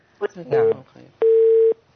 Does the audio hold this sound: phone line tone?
yes